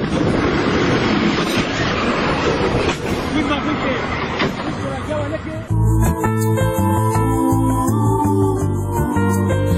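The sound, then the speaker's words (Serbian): A passenger train on its regular line comes around a bend with a loud, dense rumbling clatter, then gives way abruptly midway to steady, sustained tonal sounds. “I za prve krivine ukazao se voz koji saobraća na svojoj redovnoj liniji.”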